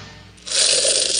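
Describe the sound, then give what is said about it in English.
Coins dropping and spilling: a brief metallic jingle that starts softly, then swells into a bright, sustained rattle lasting under a second. “That's the sound of the money you may save if the next time you are looking for a car or truck loan, you look to the State Bank of Blue Rapids.”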